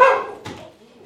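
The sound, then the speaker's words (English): A dog barks in a couple of sharp, loud bursts, the first right at the start and a second shorter yelp just under half a second later, then fading into quiet. “Sorry. Yeah, we'll calm the dog right down.”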